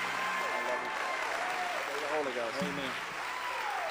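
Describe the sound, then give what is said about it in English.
A church audience applauding to welcome a pastor: dense, steady clapping throughout, with voices calling out over it. “Would you put your hands together and help me welcome the man of God tonight?”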